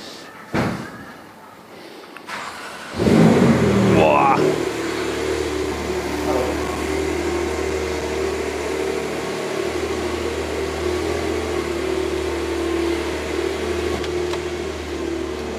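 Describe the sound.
A car being driven out over gravel, with a brake-disc issue mentioned: a thud is followed by a steady, loud low engine rumble and road noise that continues evenly to the end.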